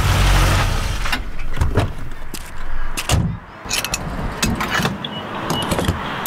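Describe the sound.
Fuel pumping into a car's gas tank: a steady, dense mechanical whir runs throughout, broken by several sharp clicks and knocks, with no talking.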